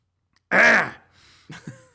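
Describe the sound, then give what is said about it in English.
A person clears their throat once with a loud, harsh rasp, then makes two brief, softer throaty follow-up sounds. “Sorry, I have a throat bubble.”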